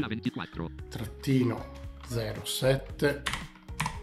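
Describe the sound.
Someone types 2024 on a computer keyboard, a few light key clicks partly masked by a person talking over them.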